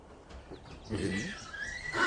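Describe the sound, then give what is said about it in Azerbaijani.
An Iranian horse whinnies in a harmonic call that wavers and drifts lower in pitch, fairly faint amid rustling background noise. “Bu İran atıdır.”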